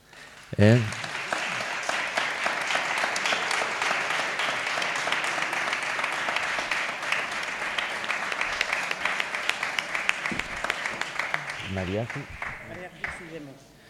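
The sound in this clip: An audience applauds at a charity concert in a village church, with dense, continuous clapping that lasts about twelve seconds, starts abruptly and thins out at the end.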